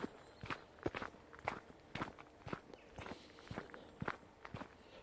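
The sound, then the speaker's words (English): Footsteps walk along a wild forest path on an early Sunday morning, a steady run of many crisp, evenly paced steps with no talking. “So we're walking down a path in the wild forest.”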